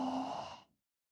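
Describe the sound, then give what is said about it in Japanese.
A single deep breath out during a slow guided breathing exercise, a fairly loud, breathy, sigh-like exhale lasting under a second before falling silent. “ゆっくりと吸って吸って吐いて吐いて”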